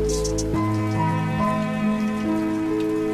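Rain falls in a dense, continuous patter, with sustained ringing tones layered over the hiss throughout and no voices.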